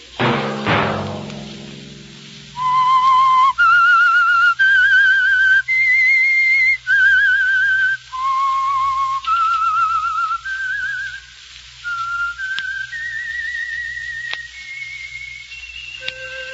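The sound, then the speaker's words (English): A lone whistler carries a slow theme melody in clear, pure notes, many held tones stepping up and down after a brief loud burst at the start. “Let that whistle be your signal for the Signal Oil program, The Whistler, each Wednesday night at this same time.”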